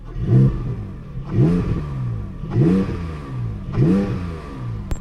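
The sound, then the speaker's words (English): A red 2022 Porsche Cayman GT4 driving on the road, its engine revving in four repeated surges. Each surge climbs sharply in pitch and then eases off in an even rhythm, with no voices. “As you've asked nicely, let's get this beautiful Guards Raid 2022 Porsche Cayman GT4 out on the road for this RSL Real World Road Test.”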